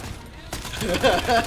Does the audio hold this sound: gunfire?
yes